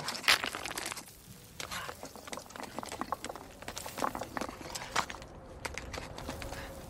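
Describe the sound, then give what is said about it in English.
Knife stabbing and scraping at flat, rounded stones in a wall as a soldier loosens them, a long run of sharp, irregular crunching and scraping hits, some louder than others. “He glances up, then continues stabbing at the wall. He shakes the knife from side to side and loosens the flat, rounded stones.”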